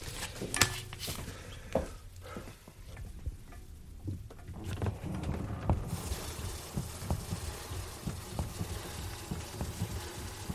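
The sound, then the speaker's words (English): Bellows of a hand-cranked organ working, a soft breathy rush of wind with scattered small knocks and clicks that becomes fuller and steadier partway through. “As soon as you start to turn, the organ comes alive. It becomes a living thing. Even when you only hear the bellows working, you hear the wind.”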